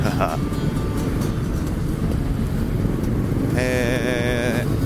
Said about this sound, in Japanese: ちょっとトランス系の曲をかけながらうならせております。元気ですね。まだ日も高いのにもう暴走です。